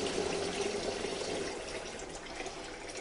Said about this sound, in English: I'm on my way into my kitchen now. So the first thing I need to do is to rinse these nettles off.